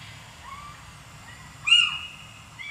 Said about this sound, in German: Das sind Steinkauz. Sehr gut. Das sind Eulen hier.